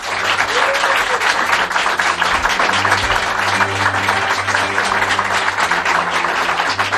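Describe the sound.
Sustained audience applause from listeners attending an open-day event at a radio studio in San Sebastián de los Reyes, Madrid. Dense, steady clapping fills the whole seven seconds at a loud, even level, with no voices.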